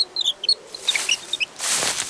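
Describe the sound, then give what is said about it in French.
A lone chick in the grass cheeps in a quick string of short, high, thin peeps, several per second. A brief burst of broad rustling noise follows near the end. “Oh, c'est un poussin. Il est tout seul.”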